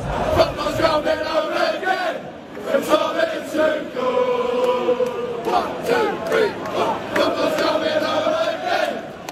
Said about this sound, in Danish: De engelske fans, de drømmer om pokalen, så fodbold endelig kan bringes hjem, som de synger her.